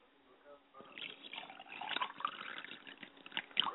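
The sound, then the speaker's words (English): Water splashes as a person washes their face by hand, soft at first, then irregular splashing and dripping that grows louder and busier toward the end. “Let me wash my face.”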